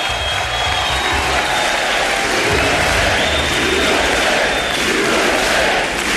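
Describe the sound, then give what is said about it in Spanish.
A crowd of Republicans at a political speech applauds enthusiastically and chants, producing a dense, steady wash of clapping with massed shouting voices that stays loud throughout. “USA, USA, los republicanos aplaudiendo con entusiasmo a Trump.”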